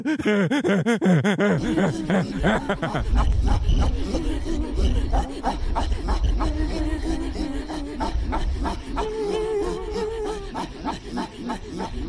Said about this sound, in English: Well, there you go. That's Inuit singing.